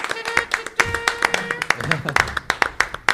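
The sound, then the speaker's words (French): Applause from a comedy show audience is heard as a series of sharp, evenly spaced, distinct claps. The steady rhythm of hand claps runs through the whole clip under talking voices. “Exactement, on peut encore les applaudir.”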